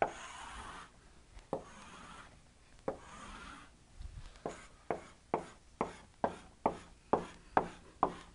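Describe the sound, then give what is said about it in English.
Drawing four array boxes on a board during a programming lecture: soft scratchy strokes, sparse at first, then settling into a steady run of short taps and scrapes, faint, with no voices. “Draw those right there to make it clear that that's the zeroth, the oneth, the twoth, the third.”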